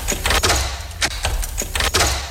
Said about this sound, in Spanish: Ayúdame. Esta cerradura se romperá fácilmente.